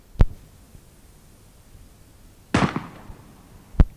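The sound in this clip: Sharp bangs of a hunting rifle fired during a roe deer hunt with dogs: three short, loud cracks spaced apart, the middle one broader with a brief rattling tail, separated by quiet background.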